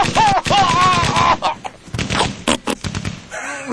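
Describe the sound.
A few sharp gunshot bangs from a Smith & Wesson gun, used as a sound effect, burst out in the second half of a busy, layered mix that opens with a whistling, sliding tone.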